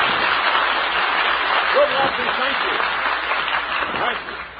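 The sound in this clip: Audience applause welcoming people in uniform who stand at a live show, a broad, steady wash of clapping that gradually fades toward the end, with a voice speaking over it.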